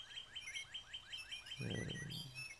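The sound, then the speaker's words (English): Recorded birdsong: a rapid, even series of high, thin chirps repeating steadily throughout, joined partway by a brief low rumbling sound underneath. “And the sound of those birds, well, it's been recorded and canned”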